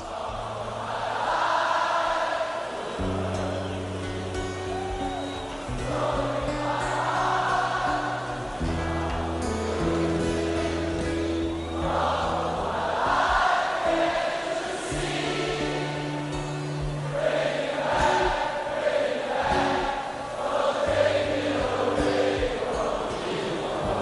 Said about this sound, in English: And I just thought I'd give us a listen to this for them in Rio, just kicking ass. And this is all audience.